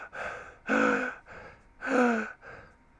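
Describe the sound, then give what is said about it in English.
A voice imitates a woman blowing her breath out very hard, making five forceful, breathy huffs in which louder blasts alternate with softer ones. “And then she went away and walked across to me and blowed her breath very hard like this.”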